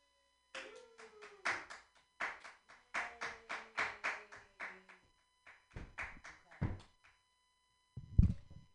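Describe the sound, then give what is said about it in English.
Audience clapping at an open mic comedy night: a few dozen sharp, uneven claps from a small crowd, with a voice sounding over part of it and a louder burst near the end. “Keep your hands clapping for Brandon, everyone.”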